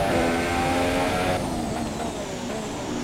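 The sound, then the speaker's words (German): A car engine accelerates in a racing video game, a loud, steady, high engine roar that runs continuously and shifts its pitch slightly partway through, with no voices. “Okay, er gibt auch schon Gas.”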